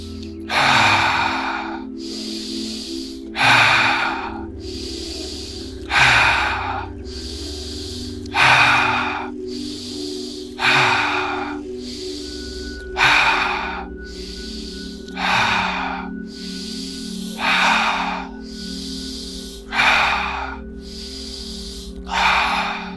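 Deep breathing during a breathing exercise: many forceful breaths in a steady, repeating rhythm over a continuous low droning hum, with no talk.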